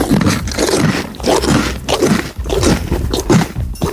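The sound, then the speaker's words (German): A pony chews food with loud, wet crunching and grinding. The bites come in a run of close, uneven bursts separated by short pauses. “Da wird aber laut gekaut. Kannst du noch mal, bitte? Ronny Pony, möchtest du noch was fressen?”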